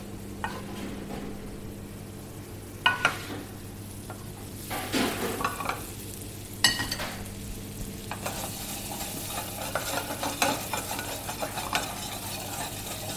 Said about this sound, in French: On va pouvoir lancer la viande.